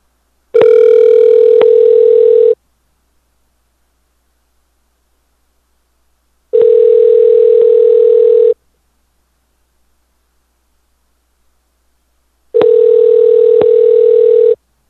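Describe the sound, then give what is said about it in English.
Telephone ring tone from a call left ringing until it stopped: a steady, loud buzzing tone sounding in three two-second bursts, each separated by about four seconds of silence. “All right, I hung up. It's weird. It stopped ringing, so I don't know. I was just letting it ring for the hell of it”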